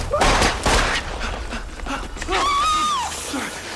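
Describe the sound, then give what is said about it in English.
Several sharp bursts of gunfire hit a man fleeing through back streets and vaulting a wall. A loud, high shouted voice follows near the end. “He vaults the wall as more bullets slam into him.”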